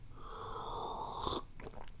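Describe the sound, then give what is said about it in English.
A faint, drawn-out slurping sip of hot Gaoshan tea: a breathy, airy draw ends in a brief louder burst, followed by a few soft mouth sounds. “Good tea. Drinking Gaoshan today. It's so yummy.”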